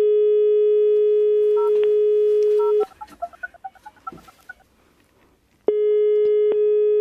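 Telephone call tones: a steady electronic tone, then a quick run of short keypad dialing beeps at shifting pitches, and after a brief quiet the steady tone returns.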